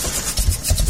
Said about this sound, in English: That sound is a major headache. For diesel truck and fleet owners, a struggling engine means lost time